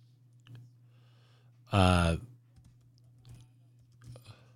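Faint keystrokes on a computer keyboard, a few sparse clicks scattered over a steady electrical hum, broken midway by a short voiced sound.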